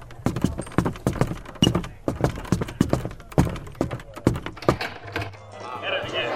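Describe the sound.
Footsteps climb a flight of stairs as many steady, evenly spaced thuds, moderately loud, giving way to a softer rustling wash near the end.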